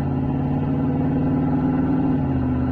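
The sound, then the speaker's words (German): A car engine at full throttle on dry asphalt inside a tunnel, a loud, steady, low droning roar with strong layered harmonics that holds for the whole stretch, with no voices. “Im Tunnel griffen die Räder sofort nach dem trockenen Asphalt. Steven gab Vollgas.”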